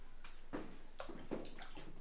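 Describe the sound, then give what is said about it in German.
Hot water splashes and sloshes as feet are washed, in several separate bursts over a steady watery background. “Alles bloß, weil das Wasser gerade heiß war. Habe ich mir gedacht, wasch da halt deine Füße.”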